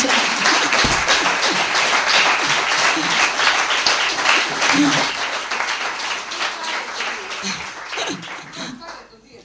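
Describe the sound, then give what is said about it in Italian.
Applause fills the room at a book presentation in Rome: dense, steady clapping from a crowd that holds loud for most of the stretch, then thins and fades toward the end. “A Roma abbiamo stravinto, anzi un applauso per Emma che ha vinto a Roma.”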